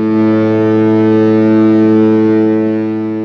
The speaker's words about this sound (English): And that's the sound of our cruise ship horn signal, letting folks know that we are pulling off.